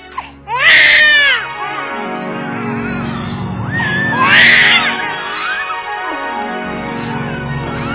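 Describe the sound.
Newborn twin babies cry in loud, continuous, high-pitched wailing that swells into sharper peaks twice before settling into sustained sobbing.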